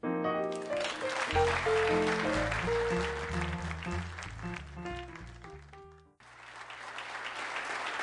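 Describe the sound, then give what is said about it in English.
Audience applause at a live show with a jazz number, a dense, steady clatter of clapping over band music with low bass notes, briefly dipping near the end before picking up again. “I know, but I just want to get this clapping thing straight now.”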